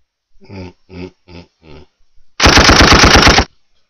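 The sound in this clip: A gunfire sound effect lets loose a loud, roughly one-second rattling burst of automatic fire, preceded by four short voiced sounds.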